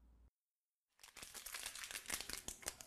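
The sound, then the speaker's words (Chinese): Coffee packaging being torn open: after a brief silence, a dense burst of crackling, crinkling rips and sharp pops runs for about two seconds at a fairly quiet level. “他撕开了咖啡的包装。”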